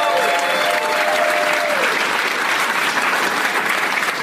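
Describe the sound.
Audience applause for a game contestant, dense continuous clapping at a steady, loud level throughout.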